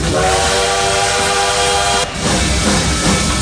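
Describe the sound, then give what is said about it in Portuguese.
Bullet train sound effect: a sustained, bright horn tone rides over a steady rushing rumble. The horn cuts off about two-thirds of the way through, and the loud rush carries on alone to the end. “Esse é o trem-bala do Modão da Paz que te leva de carona até lá, o ponto final, às 7 da noite.”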